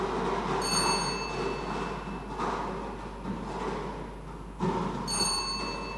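Continuous rolling rumble of a spinning lottery drawing drum, the circular device turned at a Thai prize-number draw, moderately loud and steady throughout with a few sharper knocks.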